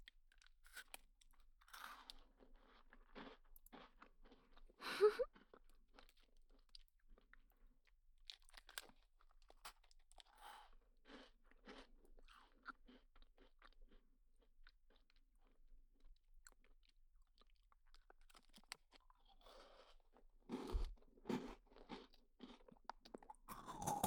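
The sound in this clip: Crunching and chewing of an Alfort milk chocolate biscuit snack, with many faint, crisp bites and crackles scattered irregularly across a quiet background, some clusters denser and a few sharper crunches standing out.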